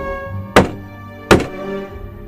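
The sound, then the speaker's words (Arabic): Two dull knocks on a closed, locked room door, evenly spaced and heavy, over a steady humming background. “مش عارف يرد عمال يخبط.”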